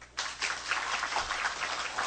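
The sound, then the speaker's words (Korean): An audience breaks into applause after a brief quiet moment, and the clapping quickly becomes a dense, even rattle that carries on without pause. “박수 한번 칠까요?”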